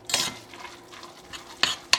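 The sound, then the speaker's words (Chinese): A spoon stirs chive, pork and shrimp dumpling filling in a bowl, making a few brief scraping, squelching strokes with soft rubbing between them. “好，好，快速搅拌均匀就好了，不要搅太久，因为就是会怕出水。”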